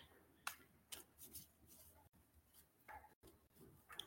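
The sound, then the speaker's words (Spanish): Playing cards are shuffled during a card reading: faint, papery riffles and flicking ticks in a few short bursts, with no voices. “Voy a revolver las cartas”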